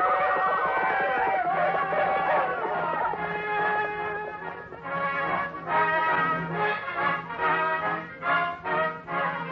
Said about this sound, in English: Here they come. They're riding fast. They're riding hard.